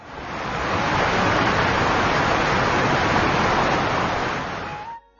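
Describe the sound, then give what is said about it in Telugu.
Rushing water of babbling streams and a roaring waterfall forms a dense, even hiss and roar that swells in, holds steady and thins out near the end. “గలగల పారే సెలయేళ్లు, హోరెత్తించే జలపాతాలు,”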